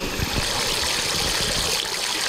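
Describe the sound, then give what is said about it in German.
Water splashing from small ground-level fountains at Aachen's Elisenbrunnen on a warm summer day, where children jump through the jets. It is a steady, even rush and patter of water with no break. “Am Aachener Elisenbrunnen springen einige Kinder durch die kleinen Wasserfontänen, die aus dem Boden kommen.”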